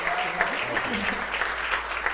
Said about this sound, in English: Could you guys give them a hand?